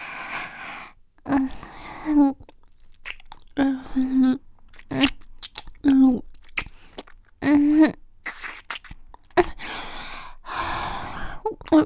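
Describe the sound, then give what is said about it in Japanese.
Deep kissing with tongues: many wet smacks and lip sounds, broken up by breathy sighs and short voiced murmurs. “もっと、舌、絡ませよ。”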